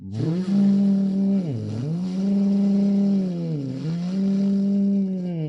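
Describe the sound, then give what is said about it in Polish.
A car engine revved hard during angle parking on a driving test, a sustained high-revving drone held steady, dipping briefly twice before climbing back to the same strained pitch. “I na tym prawie jazdy parkowałem sobie skośnie i bardzo gazowałem, czyli moje parkowanie brzmiało mniej więcej tak.”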